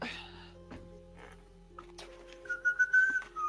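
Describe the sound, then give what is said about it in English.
A short melodic tune from a video game is whistled: a few quick notes rise and fall, clear but fairly faint. Before it there is a quiet stretch with a few soft knocks. “Whoever just whistled, please know that may be from something. Is it from Zelda? Yes. Yeah, it is.”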